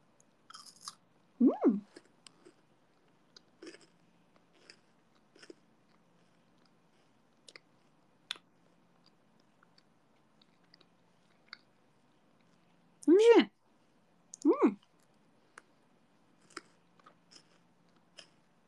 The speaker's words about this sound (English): Anyway, I'm eating a Kit Kat with milk tea. Delicious.